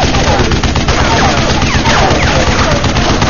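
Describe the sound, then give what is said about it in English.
Loud machine-gun fire chatters from the weapons pod on top of a globular armored war wagon, one continuous, dense burst of rapid shots with no pause. “The top of the globular wag lifted once more, and a strident machine gun chattered from the complex weapons pod.”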